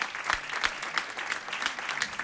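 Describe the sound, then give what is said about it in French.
Applause from the audience at a live stage show. Dense, steady clapping runs throughout, with a regular beat of louder claps standing out above the general wash of hands. “On l'applaudit. Effectivement, on peut l'applaudir.”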